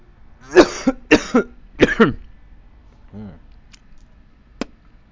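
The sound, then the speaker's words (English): A person coughs after choking on their own spit: a few hard, rough coughs in quick succession, then a short throaty gulp and a faint click in otherwise quiet surroundings. “Sorry about that. Got a breathe my own spit.”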